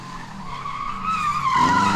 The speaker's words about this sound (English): You'll be relieved to know that this man isn't driving a real car on a real road. He's a volunteer in a study of a brain training game,